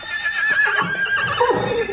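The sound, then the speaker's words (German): A horse whinnies in one drawn-out neigh lasting about two seconds. The high, wavering, harmonic cry stays loud throughout and drops lower toward the end. “Unsere Rosinanten. Verzeiht, Pferde. Sie sind eher zäh denn schön.”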